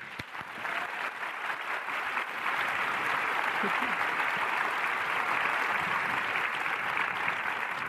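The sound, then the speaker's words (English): Audience applause welcoming speakers to a session, sustained clapping that swells over the first seconds and then holds as a loud, even wash of claps to the end. “Please put your hands together and welcome Linda and Des.”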